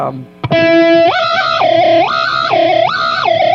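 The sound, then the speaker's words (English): A guitar burble effect played through effects pedals gives a loud, harsh, distorted tone. After a sharp attack, it warbles up and down in a steady repeating wobble, sounding angry and gritty. “use what I call a burble effect, which is this sort of thing.”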